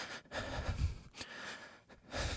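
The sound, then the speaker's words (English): Stressed breathing demonstrated by a person: a few quick, sharp, gasping breaths, faint and alone with no talk. “When we're in a state of stress, our breath responds accordingly. For most people, it sounds like this.”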